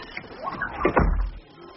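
A cupboard door being shut in haste: a brief scraping creak leads into a low, dull thud, with soft rumbling noise underneath.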